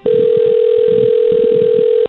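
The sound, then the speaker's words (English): Telephone ringback tone on an outgoing call: one loud, steady, unbroken tone that holds at a single pitch for about two seconds and then stops abruptly. “It's ringing.”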